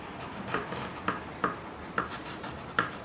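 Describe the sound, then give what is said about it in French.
A child colouring in a drawing of a schoolyard with a pencil makes soft, continuous rubbing scratches, punctuated by several sharper strokes at a fairly regular pace. “Je vais colorier comme ça les endroits où on ne peut pas jouer.”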